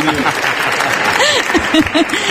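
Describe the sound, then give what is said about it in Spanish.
Audience applause rolls on as dense, steady clapping throughout, with a voice speaking over it partway through. “Y encima le aplaudís, sois mala gente.”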